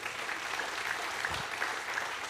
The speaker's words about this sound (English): You guys could clap and make him feel welcome, all right?